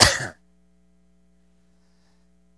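A single brief throat clearing during a Bible reading, one short rough burst lasting a fraction of a second, then near silence over a low hum.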